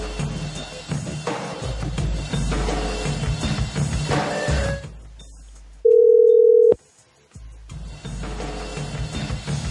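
A telephone call tone sounds once as a steady mid-pitched beep lasting under a second. It comes in a quiet gap between longer stretches of busier sound.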